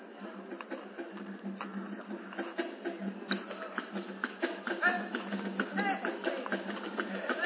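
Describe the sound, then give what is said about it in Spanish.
Cajón and cajita percussion boxes are played together, giving quick rhythmic wooden knocks and clacks that tumble along in a busy, uneven pulse, growing slightly louder toward the middle. “Cajón y cajita suenan así. Suena.”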